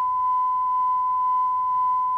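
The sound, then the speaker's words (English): A steady pure test tone recorded on a digital machine holds one clean, unwavering pitch at constant loudness for the whole stretch, with no voices and only a faint low hum beneath it. “Now that is tone recorded on a digital machine, and to all intents and purposes that is as good as an oscillator.”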